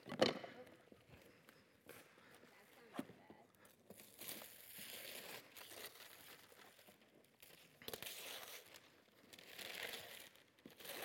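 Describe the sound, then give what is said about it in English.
Wrapped packages are ripped open. Dense crinkling and tearing bursts of wrapping material run throughout, some sharp and loud, others soft rustles in between. “Don't be shy. Just find a crease and rip.”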